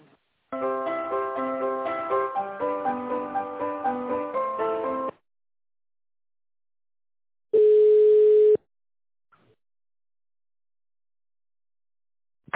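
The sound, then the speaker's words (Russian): Telephone tones while a call is being transferred: a rhythmic electronic hold melody lasting about four and a half seconds, then a pause and a single steady, flat beep of about a second. No voices are heard. “Я вас сейчас в тендерный отдел переключу, секунду.”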